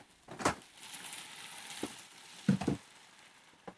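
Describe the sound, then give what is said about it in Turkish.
A little water and two or three cubes of butter sizzle in a pan, making a soft, steady hiss broken by a few brief pops and clatters. “Şimdi şuraya çok azıcık su koyacağım. 2-3 küp tereyağı alacağım.”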